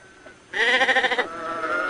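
A single sheep bleat bursts in abruptly as a loud, wavering, quavering cry, then settles into a softer, drawn-out tail, with only faint background noise before it.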